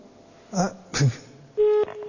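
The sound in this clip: A telephone tone as a number is dialled: one loud, steady electronic beep follows two short vocal-like bursts, then fades into a fainter sustained tone.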